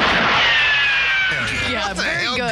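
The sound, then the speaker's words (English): A 1966-era gun sound effect: a sharp burst followed by a long, falling ricochet-style whistle, then a further rough crackling burst toward the end. “I just want to give a special shout out to the gun sound effects from 1966.”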